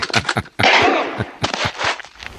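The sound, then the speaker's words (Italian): Gunshot effects in a radio comedy sketch: a few quick sharp cracks, a brief gap, then longer noisy bursts of fire. “Corri! Aiuto! Mi sta sparando!”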